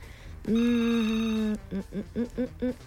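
A telephone rings as a call comes in to a song-request show: one long, steady electronic tone, then a quick string of short, evenly spaced beeps over low background noise.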